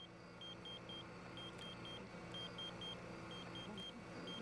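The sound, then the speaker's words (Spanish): Insistent beeping from a pager buried beneath a grave in the desert: faint, short high beeps in repeated groups of three over a steady low rumble. “El sonido insistente de un localizador que rompió el silencio en el desierto.”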